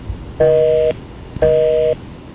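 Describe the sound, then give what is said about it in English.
A telephone busy signal: two steady, even tone bursts of about half a second each, separated by a pause and heard alone with no talking. “Probably it, since the line is busy.”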